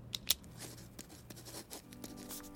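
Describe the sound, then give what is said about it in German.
A ballpoint pen writing on a paper napkin: two sharp little clicks, then faint, irregular scratching strokes, very quiet with no voices. “nimmt sich einen Kugelschreiber und schreibt etwas auf eine Serviette”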